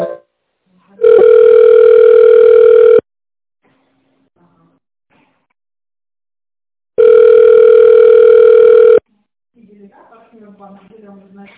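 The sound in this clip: Ringback tone on a telephone line while a call is connected: two long, steady, loud electronic beeps of about two seconds each, separated by a long silence, and then a voice begins speaking at the end.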